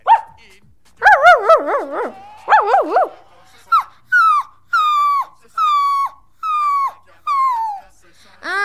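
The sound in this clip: Small dog barking and whimpering: warbling, wavering whines give way to a steady series of short, evenly spaced high yelps, each sliding down in pitch.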